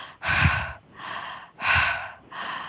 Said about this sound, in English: One of my favorite techniques is just mouth open, eyes open, breathing.